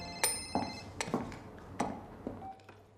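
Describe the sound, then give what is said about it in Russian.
A telephone rings with a bright, bell-like electronic chime: several sharp strikes with ringing harmonics, spaced irregularly and fading toward the end. “У Ирины звонит телефон.”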